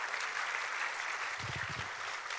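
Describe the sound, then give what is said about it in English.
An audience at a church service gives a hand clap of praise: soft, steady, continuous applause, with a low voice briefly audible beneath it. “Can we give him a hand clap of praise today?”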